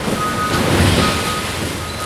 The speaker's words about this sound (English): This is the sound of a garbage truck dumping its entire contents on the floor of Re Community Recycling in Southfield.